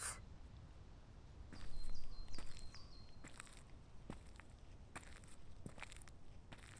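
Soft footsteps of someone setting off on an outdoor walk on a sunny day, a faint run of light steps, with birds chirping briefly near the start.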